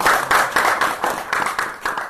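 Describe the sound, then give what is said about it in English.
Students at a school applaud enthusiastically after a visiting scholar's talk, with many quick claps in a steady, pulsing rhythm that stays loud throughout. “And the students applaud, enthusiastically.”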